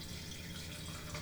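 Wine being poured: a brief, faint, steady trickle of liquid lasting about a second.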